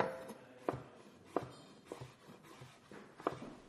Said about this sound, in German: Schneiden Sie zunächst die Zucchini in Streifen.